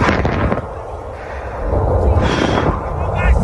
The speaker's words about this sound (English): This is Mount Etna exploding.